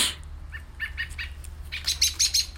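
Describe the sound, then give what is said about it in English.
A loud bird calls while flying overhead, giving a rapid series of squawky chirps. The first few are fainter, then a louder, harsher cluster follows. “God damn it, loud ass bird. Hey, nigga, these motherfuckers sound like they fighting. Hey, he just flying over my head.”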